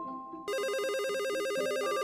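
An electronic telephone ring, an incoming listener call to a radio studio, breaks in loudly after a quiet half-second and continues as a rapid, steady warbling trill that alternates between two tones.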